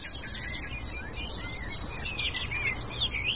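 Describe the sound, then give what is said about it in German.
A bird sings continuously, pouring out rapid, high-pitched chirps and trills over a steady hiss of background noise, the song growing a little louder and busier toward the end. “Also dieser Vogel hält gerade nichts zurück. Er singt und singt und singt.”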